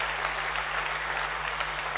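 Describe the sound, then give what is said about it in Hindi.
An audience claps loudly in tribute to Dr. Kalam, a thick, even wash of many hands with no breaks, its tone somewhat dull and muffled, and no voices over it. “तो doctor कलाम, हाँ जोर से तालियां जरूर बजा सकते हैं.”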